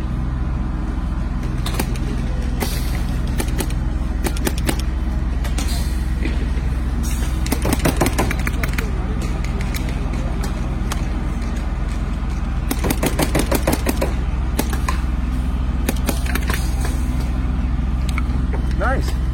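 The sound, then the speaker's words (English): A paintball marker firing like a Planet Eclipse gun, with its magazine fitted: rapid bursts of sharp shots in quick succession over a steady low hum. “Shoots just like a Planet E gun. I like that. The mag fits and snaps well. It is a die mag, but it does shoot quite well.”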